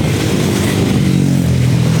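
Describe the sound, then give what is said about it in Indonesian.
Engine rumble of a sand truck passing on a road in busy traffic: a steady, loud, low drone with layered harmonic hum, holding even throughout with no voices. “Ada satu truk pasir lagi, sebentar. Otomatis akan melambat”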